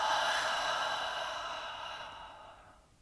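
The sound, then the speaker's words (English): A long, deep exhale during a guided breathing exercise: a soft, steady, airy rush that gradually fades away over about three seconds. “Feel your belly, chest, rib cage all expand, and let it all go with an exhale.”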